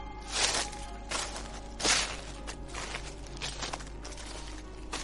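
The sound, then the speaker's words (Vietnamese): Rustling, shuffling footsteps at night in pitch darkness, a few irregular crunchy bursts of noise rising over a steady low hum, with no voices. “Gần chỗ hai đứa chúng nó ngồi bỗng vang lên tiếng loạt xoạt, giống như kiểu là ai đang càng lúc càng đi đến gần.”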